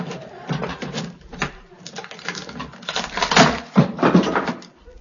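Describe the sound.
A case being opened during a customs inspection, heard as a series of clunky knocks, clicks and creaks that come in uneven bursts over a few seconds, with no voices.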